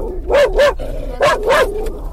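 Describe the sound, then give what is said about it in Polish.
Dog barking while getting into a car: four loud barks in two quick pairs, with no talk over them. “Teraz idziemy do samochodu. Lunka wsiada, Lunka trochę szczeka.”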